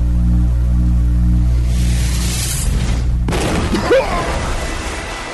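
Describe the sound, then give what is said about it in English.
An energy blast explosion: a low, steady humming drone suddenly gives way to a loud, broad burst of noise, followed by crackling, rumbling debris that slowly fades. “Sun King fails to prepare himself for the Nova Blast that suddenly erupts from between the mysterious woman's massive breasts.”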